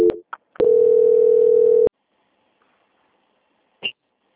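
Telephone line tone as a bank call is transferred: a few short tone blips lead into one steady, sustained tone lasting over a second, then near silence broken by a brief click.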